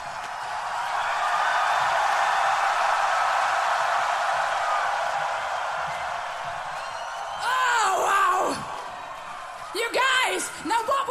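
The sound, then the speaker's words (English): A crowd roars and screams at a heavy metal concert in a loud, sustained wash of noise. The roar then eases as a man's voice addresses the audience in short phrases. “If I count to three, and on three you would scream even louder.”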